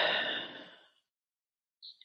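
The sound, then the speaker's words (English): A deep cleansing breath comes through as one long, airy exhale that fades away over about a second, followed by a couple of faint, brief noises and no voices. “We will take 3 deep cleansing breaths to center ourselves in this moment. Deep in, deep out.”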